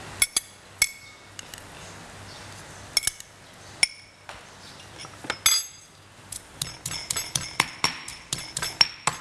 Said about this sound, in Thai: ก็โขกกระเทียมอาจจะสับพริกขี้หนูแต่อันนี้ใช้โขกให้เข้ากันนะคะ